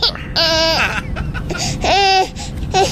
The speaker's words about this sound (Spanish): tercera llamada a la, señora o al señor que esté con el niño, por favor que lo calle